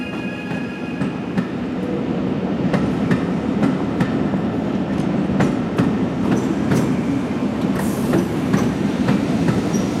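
Train rolling through Toulouse Matabiau station, a steady rumble with a regular clickety-clack of wheels over the rails and a brief high-pitched wheel squeal near the end; no voices.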